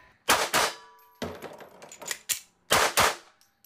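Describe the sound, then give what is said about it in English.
Loud gunfire from a shooter firing rapidly while on the move: many sharp, cracking reports in quick clusters, separated by short pauses and followed by a faint final pop. “Shooting that fast on the move is not easy.”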